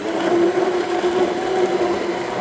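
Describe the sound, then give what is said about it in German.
Homemade hot cranberry sauce is being mixed with a large electric hand blender, making a steady, loud, whirring drone with a constant motor hum running underneath. It runs without pause and no one speaks. “Mit einem großen elektrischen Rührstab arbeitet der 53-Jährige mit Vollbart und lachenden Augen bei unserem Treffen an seiner selbstgemachten Hot Cranberry Cracker Sauce.”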